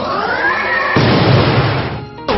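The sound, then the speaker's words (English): A 'Spirit Force' attack effect from a video game battle starts as a steady tonal hum, then bursts into a loud, noisy blast that roars for about a second before cutting off abruptly. “So shoot, Snowmano used Spirit Force.”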